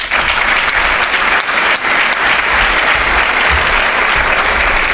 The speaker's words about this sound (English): Let's have a hand for you for showing up tonight.